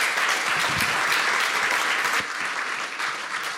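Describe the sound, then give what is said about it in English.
Audience applause at a gathering where a group is being honored: a dense, steady wash of many hands clapping that holds loud for about two seconds, then eases slightly and carries on to the end. “let's give these folks a round of applause”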